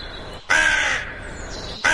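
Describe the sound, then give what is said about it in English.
A crow gives two loud, harsh caws with no voices around them. The first is long and rasping, and the second starts right at the end and is cut off. “Many years ago, the late Graham Kennedy got suspended for 2 weeks for impersonating a crow on live TV. He did. It didn't quite sound like this, did it?”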